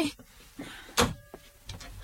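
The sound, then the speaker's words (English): A door being unlocked and opened: a crisp click of the lock and a brief rattle of the handle, fairly quiet, with small mechanical knocks around it. “Why is this door locked?”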